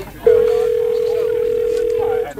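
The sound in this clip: Telephone ringback tone while a call is being placed: one steady, mid-pitched tone held for about two seconds, heard alone.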